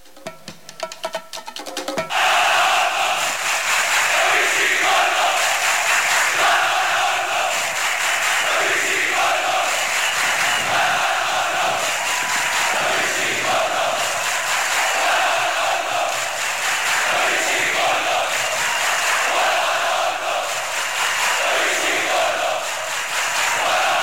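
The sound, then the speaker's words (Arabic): Ismaily football fans chant before a match in the Arab championship, a loud, sustained roar of massed voices that starts after a short opening and holds steady for more than twenty seconds. “ودي كانت هتافات جماهير الإسماعيلي قبل بداية المباراة”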